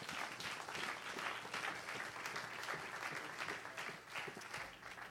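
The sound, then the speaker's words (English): Congregation applauding at an Easter church service: dense, sustained clapping that holds steady throughout, with no voices over it. “Why don't you give them one more hand today?”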